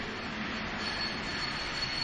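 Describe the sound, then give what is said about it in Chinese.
Steady, even rumble of a train pulling into the station at Weihui, a dense continuous roar with no clear change in level and no voices. “火车进站停稳”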